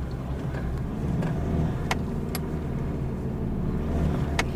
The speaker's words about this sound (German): Wow, wir fahren.